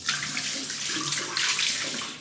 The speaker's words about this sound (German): So, it's done. Schön Hände waschen, nicht vergessen.